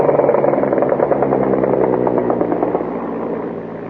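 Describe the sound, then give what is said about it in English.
Engine drone from a World War I SPAD 13 fighter aircraft: a loud, steady, buzzing roar rich in harmonics. It runs unbroken throughout and eases slightly in loudness toward the end. “That is the sound of an actual SPAD, a World War I SPAD 13. Which was a World War I fighter.”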